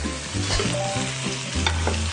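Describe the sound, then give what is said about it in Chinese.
Meat fries in a pan with ginger and garlic after excess oil is poured off, a loud continuous sizzle with crackling pops and a few scraping strokes, with no talk. “一边煎，然后让它这种姜和蒜的味道就出来了。”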